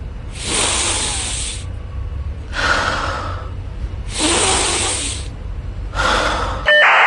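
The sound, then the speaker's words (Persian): Four long, deep breaths drawn after a window has been opened, each a soft, breathy rush of air lasting about a second, separated by short pauses, with no talk. “سه تا نفس عمیق بکش”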